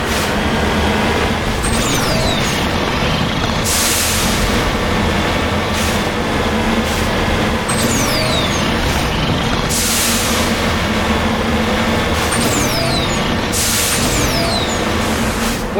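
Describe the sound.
Armored vehicle driving in a video game, a loud, steady rumble of engine and rolling noise that runs throughout, broken by three brighter bursts and several short descending whines.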